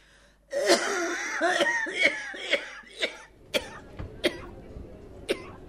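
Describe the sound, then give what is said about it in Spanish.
Harsh, wheezy coughs from a feverish, sweating man at a desk in a radio play, coming in a rapid uneven series of many bursts, with sharper, thinner hacks toward the end. “Entonces me acerco al escritorio y como no me salían las palabras de la calentura que tenía, empiezo a toser.”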